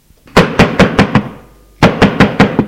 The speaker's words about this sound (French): On frappe à la cloison.